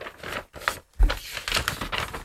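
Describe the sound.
A coloured paper envelope is torn open during a game-show style reveal. A few short bursts of ripping and rustling paper come in uneven rhythm, with a soft low thump partway through.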